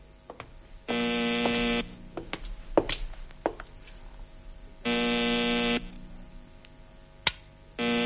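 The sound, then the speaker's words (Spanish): A telephone call rings on a switchboard as a harsh, steady buzzing tone in three bursts of about a second each, with the last one cut off. Scattered clicks and knocks fall in the gaps. “Maldita sea, sigue sonando la llamada. Pero no, no acabo de acertar con la clavija de esta centralita.”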